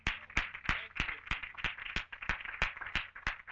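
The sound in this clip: Rhythmic clapping from a church audience applauding the Lord: a steady beat of sharp, even claps, roughly three per second, repeating throughout.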